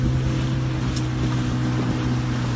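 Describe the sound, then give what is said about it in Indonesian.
Motorboat on the sea at Laut Sembilangan: a loud, steady low engine drone with a constant hum, under a broad wash of water and wind noise throughout. “Kita berada di Laut Sembilangan”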